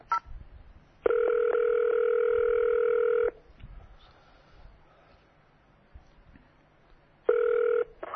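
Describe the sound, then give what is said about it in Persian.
Telephone ringing tones after zero is pressed on an automated phone menu to reach an operator. A steady electronic tone holds for about two seconds, then faint background noise, then a second, shorter burst of the same tone. “تماس با اپراتور شماره 0. 0 بزن.”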